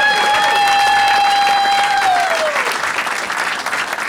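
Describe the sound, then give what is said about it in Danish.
An audience claps loudly for an arriving guest, with dense, steady applause throughout and a sustained whistle that slides downward in pitch partway through. “Så mine damer og herrer, kan I ikke gøre mig en kæmpe tjeneste og give en stor hånd til en type fra Randers? Giv en kæmpe stor hånd til en type fra Randers.”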